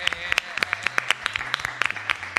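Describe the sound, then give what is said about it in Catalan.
Applause welcoming a guest on a Catalan radio show, made up of many sharp, separate hand claps in an uneven patter over a low steady hum. “Un aplaudiment, no?”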